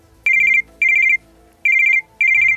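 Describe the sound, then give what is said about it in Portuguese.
A telephone rings in four loud electronic trilling bursts, each a rapid warble at one bright pitch, separated by short silences in an even pattern. “Rapaz, quem será numa hora dessas ligando pra cá? Alô, síndico!”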